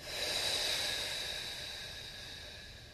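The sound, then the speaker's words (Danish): A deep breath through the nose during a guided breathing exercise, heard as one long, fairly quiet breathy hiss that swells early and then slowly fades. “Gennem dyb indånding gennem næsen. Helt ned i maven og giv slip.”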